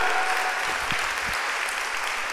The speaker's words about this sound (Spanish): Dan un aplauso al Señor con todas tus fuerzas.